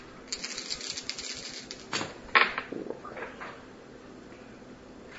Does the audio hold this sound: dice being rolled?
yes